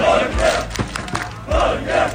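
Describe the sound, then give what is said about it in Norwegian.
Football fans celebrating in the streets of Oslo after Norway's win over Senegal, a crowd shouting in loud rhythmic chanting bursts that swell and fade in a steady repeating beat. “Det var full fest og stormende jubel I Oslos gater etter at Norge slo Senegal 3-2 I natt, selv Slottsplassen var full av roende fans.”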